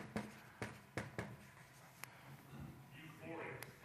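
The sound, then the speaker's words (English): Pen scratching on paper as a word is written down by hand, a few short sharp strokes in a loose rhythm, with people talking quietly around it. “Okay, so gratitude. I'm going to write down grateful.”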